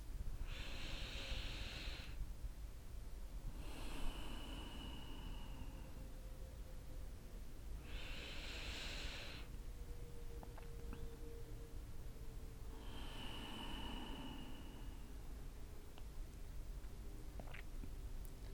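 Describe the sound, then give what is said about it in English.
Deep, slow breaths drawn in and let out during a guided breathing exercise: a few long, airy whooshes spaced several seconds apart over a steady background hiss, with no talking. “So we're going to take a couple of deep breaths here and get ourselves centered”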